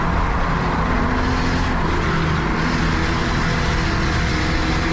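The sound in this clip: Race cars roar out of turn four on an oval track, a loud, steady wall of engine noise sustained throughout without a break.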